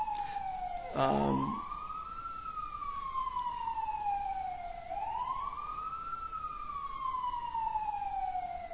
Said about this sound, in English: There's the sound of the city, isn't it? The sound of the world. What does that mean? Just nothing specific, just fire engine or something.